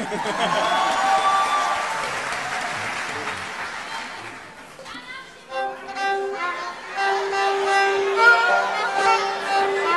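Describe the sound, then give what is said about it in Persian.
Audience applause in honour of the children: a dense, steady burst of clapping for about four seconds that fades and gives way to sustained tonal notes. “امیدوارم اینا روز به روز پیشرفت بکنن، به افتخار اینا دست بزنم”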